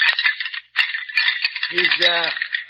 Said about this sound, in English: He's rattling bones.